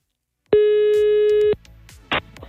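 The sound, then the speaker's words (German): A telephone line tone while calling a competition prize winner: one steady, pure electronic tone lasting about a second, then near quiet with faint clicks and a brief burst of noise. “Ich darf jetzt die letzte Gewinnerin unserer Aktion anrufen und dann sind wir alle Karten losgeworden.”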